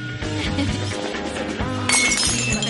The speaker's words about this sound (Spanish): A uno de sus hombres se le cae un vaso.